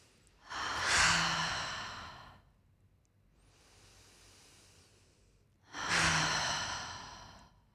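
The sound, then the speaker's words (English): Loud, deep breaths during a breathing exercise with eyes closed. Two long, heavy, airy exhales are separated by a softer, quieter breath in between. “So let's just do 6 breaths. We'll close your eyes, get comfortable. I'm going to breathe kind of loud.”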